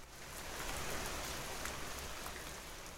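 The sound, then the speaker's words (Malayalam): Steady rain falls in a dense, even hiss of drops that stays continuous and fairly soft throughout, with no voices. “മഴപ്പെരുക്കം കുറഞ്ഞു.”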